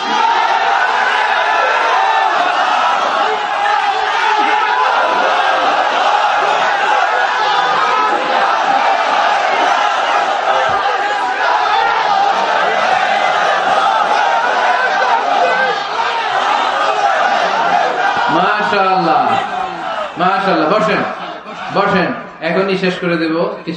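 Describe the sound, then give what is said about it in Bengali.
A sermon audience giving the takbir, a packed gathering of voices filling the air with steady babble and murmuring, then breaking into loud, chanted calls from many people in unison near the end. “তাকবীর দেন তো একজন আওয়াজ করে।”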